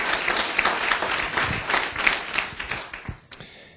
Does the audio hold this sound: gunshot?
no